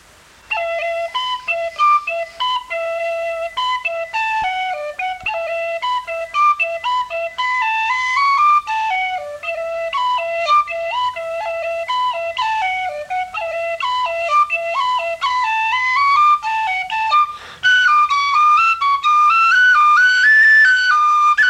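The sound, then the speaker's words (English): A traditional reel played slowly on a whistle, with a continuous run of clear, high, bright notes broken by quick ornamental flicks, brief gaps and a short pause near the end. “Now in a tune called Drowsy Maggie, a reel, it sounds like this.”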